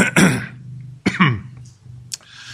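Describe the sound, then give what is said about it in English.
A man clears his throat in two harsh, rasping bursts with a short pause between them during a church service, followed by faint lip and breath noises. “Excuse me as I lubricate my throat.”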